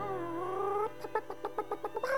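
A hen clucks: a drawn-out tonal call gives way to a quick run of short, clipped clucks, then another drawn note at the end, all fairly faint.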